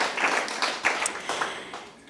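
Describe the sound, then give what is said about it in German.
A church audience applauds the band with steady, dense clapping. Many irregular hand claps overlap at a moderate, even level throughout. “Und da könnten wir jetzt gerade mal einen Applaus geben unserer Band.”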